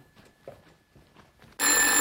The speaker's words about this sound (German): Das Telefon stand im Wohnzimmer.